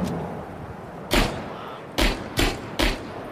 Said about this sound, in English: Someone's shooting from inside still. I hear it.